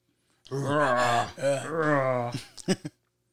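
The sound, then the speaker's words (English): A man grunts and groans in an acted film scene that has no dialogue. One long strained groan wavers in pitch, then a few short, sharp grunting gasps follow. “This is all the grunting and groaning, like I said. There's no lines here. He's just...”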